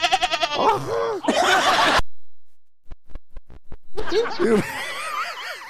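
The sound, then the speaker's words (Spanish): A lamb bleats in loud, wavering, quavering cries, with a rapid pulsing burst at the start. A quiet gap with a few soft clicks follows, then another long bleat. “Dime tú, corderito, ¿te gustaría quedarte con nosotros?”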